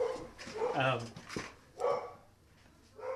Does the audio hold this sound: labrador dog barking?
yes